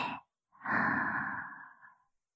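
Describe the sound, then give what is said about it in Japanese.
Soft human breathing during a guided relaxation exercise: a short breath, a brief pause, then a long, drawn-out exhale that slowly fades to silence. Quiet and heard alone. “両足を感じて、吸って、吐いて、”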